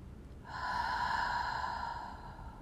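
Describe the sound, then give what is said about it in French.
A long, throaty breath is drawn through the mouth with a tightened throat during a breathing exercise. It is a single faint, steady rasp with a hollow, slightly tonal quality, lasting about two seconds. “on imagine qu'on veut aspirer l'air par la bouche. tout en resserrant la gorge. Et à l'expire, on veut imaginer qu'on veut faire de la buée sur une vitre.”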